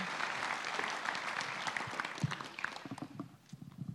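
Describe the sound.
Audience applause welcoming a speaker to the stage at a church service, a dense, steady clapping that thins out slightly toward the end.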